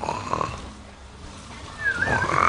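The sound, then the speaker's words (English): An audience imitates the snoring of someone about to fall asleep, a rough, breathy crowd din of many voices that sags in the middle and then swells louder toward the end. “Somebody just about to go off to sleep. You hear that?”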